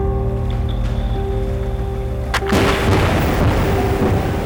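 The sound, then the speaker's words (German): Sudden boom of a seismic airgun, a sound cannon used in the search for mineral resources: one sharp blast midway through, followed by a sustained rushing wash over a steady low drone. “Das ist eine Schallkanone. Mit bis zu 260 Dezibel ist sie eines der lautesten menschengemachten Geräusche. Unternehmen nutzen sie auf der Suche nach Bodenschätzen.”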